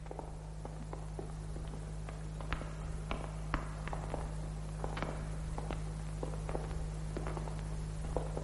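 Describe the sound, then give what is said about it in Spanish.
Faint, uneven footsteps of a woman walking with difficulty behind men after leaving a cell, many soft irregular taps over a steady low hum. “Camina con dificultad tras los hombres.”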